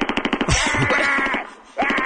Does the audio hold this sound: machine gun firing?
yes